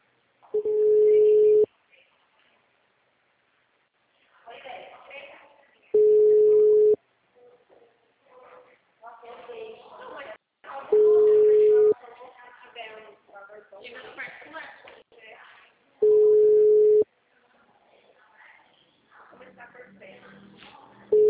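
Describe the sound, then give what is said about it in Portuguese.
Telephone busy signal while a call waits on hold: five steady mid-pitched tone bursts, the last cut short, recur about every five seconds, and a recorded voice speaks between them. “Por favor, aguarde. Todas as linhas estão ocupadas.”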